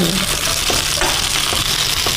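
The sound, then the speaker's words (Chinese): Loud, steady sizzle of pre-fried chicken and lion's mane mushroom going into a pan over high heat: a dense, continuous hiss with a few faint clicks and no speech. “大火，然后再把咱们煎制好的鸡肉和猴头菇都可以下入了啊。”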